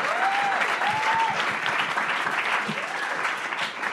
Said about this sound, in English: The crowd erupts in applause.